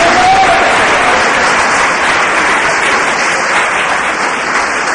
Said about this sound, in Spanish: Denle un aplauso al Señor, porque hoy es un día de victoria.